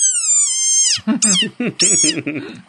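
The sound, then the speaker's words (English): Call of a desert rain frog: a long, high, squeaky whine that bends downward at its end, followed by a series of short, squeaky chirps. “go look up a desert rain frog and watch the video of this thing making this noise. It's one of the cutest little animals I've seen probably ever. Take a listen again.”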